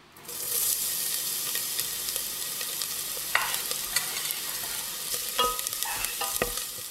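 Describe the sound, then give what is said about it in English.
Garlic sizzles steadily in hot oil in a pot over medium heat, the same pot used earlier for cooking pasta, with a dense, even frying hiss and a few sharp crackles and pops scattered throughout. “So you bring a bit of oil to heat up in your pot, and you add in the garlic and let it sort of saute for a bit.”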